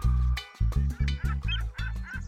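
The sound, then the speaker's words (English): Swan honking at a bird party, a series of nasal, strongly harmonic honks in an uneven rhythm, each short and fairly loud, with brief gaps between them. “Our friends from the Amazon have just flown in. Hi, Mr. Toucan. Hello, Mrs. Swan.”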